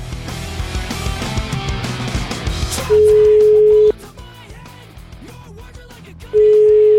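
A telephone call is placed and the ringback tone sounds: two long, steady, low beeps separated by a pause, after music that plays first and then fades, with faint sounds between the beeps.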